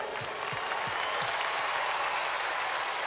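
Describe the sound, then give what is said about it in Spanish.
An audience at a live cumbia concert applauds the band in a steady, dense wash of clapping that holds an even, fairly quiet level throughout, with no talk over it. “Un aplauso para ellos, por favor.”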